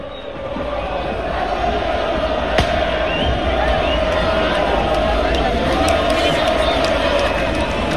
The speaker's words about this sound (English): That is the sound of 60,000 Lens fans welcoming their team back after they beat Nice to win the Coupe de France